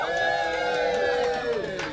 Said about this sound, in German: Applaus für Theo!